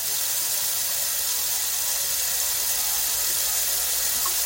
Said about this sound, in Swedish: Liksom om jag spolade kranen så hör ni liksom att det pågår grejer i alla fall.